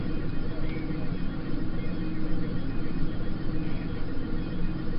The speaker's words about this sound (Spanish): A ver si escucha el avión. Sí. Vamos a quitarle para que se escuche el avión.